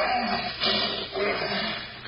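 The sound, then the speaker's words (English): Deep, rasping roar of an untrained lion at night, rough and growling. It swells in two broad waves over about two seconds, loud and noisy throughout. “A succession of shadows in the moonlight, quiet, peaceful, except for the occasional roar of protest that comes from the throat of Sultan, the untrained lion that Victor Parnell had vowed he would break.”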